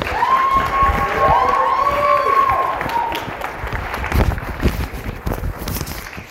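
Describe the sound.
An audience applauds to welcome a monsignor speaking about faith at a university event, a dense, loud, steady clapping that carries on throughout with some crowd noise mixed in.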